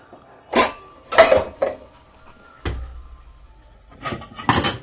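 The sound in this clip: A metal lid clanks onto a cooking pot set to boil in a kitchen, the lid slightly too small for the pot. A few separate clatters and rattles ring out with quiet pauses between them.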